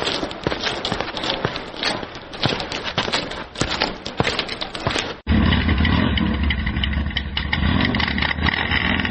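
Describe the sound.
A motorcycle engine runs with a loud, steady rumbling drone, taking over after a stretch of rapid, irregular clattering clicks.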